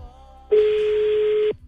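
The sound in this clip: A single telephone ringback tone as a call to a listener is placed: one steady, mid-pitched electronic tone lasting about a second, heard alone.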